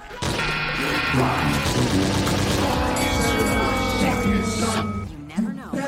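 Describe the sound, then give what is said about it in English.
A bomb-drop sound effect with dense, loud crashing and booming blasts that roll on without a break for about six seconds. “Drop a fat bomb.”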